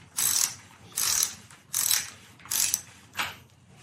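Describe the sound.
Five evenly spaced rasping ratchet bursts come from a wrench loosening a left-hand threaded TruVativ bicycle bottom bracket, each burst sharp and fairly loud with quiet gaps between and no talk.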